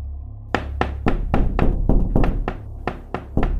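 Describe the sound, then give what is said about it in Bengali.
Hands pound on doors in a house at night: a rapid, steady series of heavy, hollow thuds, loud and with no voices. “এবার দরজাগুলোতে হাত দিয়ে পেটানোর শব্দ”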